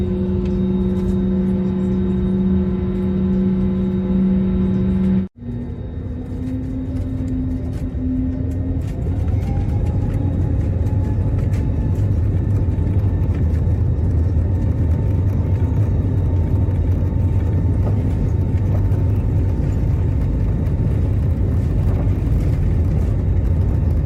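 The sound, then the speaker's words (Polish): Heard from inside the cabin, a passenger aircraft taxis onto the runway: a steady, loud engine drone and rumble with a high whine. The sound drops out briefly early on, then a tone rises in pitch and settles. “A teraz jedziemy na pas. Wjeżdżamy na pas.”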